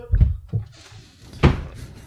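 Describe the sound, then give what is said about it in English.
A patio door being adjusted gives a few dull knocks and thumps, with a louder thud near the end and quieter rattling between. “We're still adjusting the patio door.”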